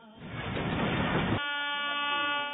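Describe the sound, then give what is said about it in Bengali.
A passing train gives a broad, loud rushing rumble, then a steady sustained horn tone takes over for the second half. “এটা কিসের আওয়াজ আসছে? রেলগাড়ি। জি হ্যাঁ, এটা রেলগাড়ি এসেছে।”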